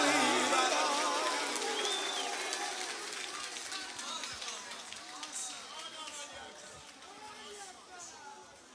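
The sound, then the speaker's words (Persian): Audience clapping at a recitation of a religious poem: a dense, crackling wash of applause that gradually fades over several seconds while a voice speaks over it. “ماشاءالله دم همتون گرم همونجوری که اینقدر قشنگ زیبا کف زدی همونجوری هم شعر رو گوش دادی”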